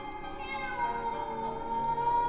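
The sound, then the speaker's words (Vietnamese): A cat meows in a sustained, drawn-out cry that is steady and tonal with a slight waver. It is moderately loud and continues through the whole clip with no talk. “Bây giờ thì nó không còn kêu gào kinh dị như lúc nãy, mà nó cứ meo meo như muốn nói điều gì.”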